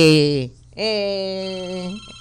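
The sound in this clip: A telephone rings for an incoming call to a radio show, a buzzy, steady electronic ring tone. A short ring is cut off at the start, then a longer ring of over a second follows a brief gap.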